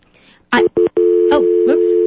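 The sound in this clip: Telephone line tones as a phone-in caller's call drops: two short tone bursts, then a steady low-pitched tone that continues to the end, with a few brief voice-like fragments over it.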